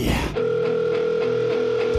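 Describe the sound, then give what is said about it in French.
A telephone line tone while a call is being dialed: a brief noisy burst, then one steady, unbroken electronic note sustained to the end. “Je call drette là mon ami Yannick, comptoir du groupe Électromortis.”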